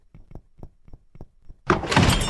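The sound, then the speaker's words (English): A thrown blade strikes a wall and sticks with a sudden, loud thudding impact. Several soft, evenly spaced low knocks come just before it. “Blade's got stuck in the wall.”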